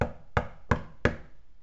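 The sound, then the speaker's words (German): Knocking on a wooden door: four evenly spaced knocks, each a solid low thud with a short decay, clear and alone. “Der Wolf läuft zum Haus der Großmutter und klopft an die Tür.”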